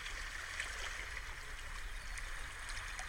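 Soft, continuous wash of sea water behind a guided seaside meditation, faint and even, a gentle hiss with no distinct surges or breaks.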